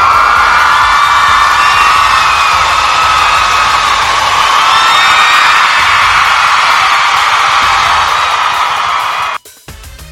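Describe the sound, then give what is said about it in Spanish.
Crowd ovation with cheering and whoops, a loud, dense wall of applause-like noise sustained for about nine seconds before it cuts off abruptly near the end. “Ovación por aguantar a esta mujer 2 horas hablando.”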